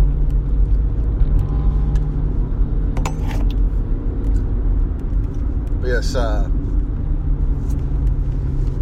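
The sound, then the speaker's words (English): An old, battered Mazda car with racing modifications that make it sound like a hot rod gives a steady, low, rumbling engine drone throughout, while a person briefly speaks over it. “It's an old Mazda car. It looks like a freaking tin can. Somebody did something to it to make it sound like a hot rod.”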